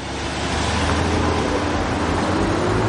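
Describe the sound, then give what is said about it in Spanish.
SUV driving away in a crime drama, with loud steady engine and road noise that swells in the first half second and then holds. “El coche se va.”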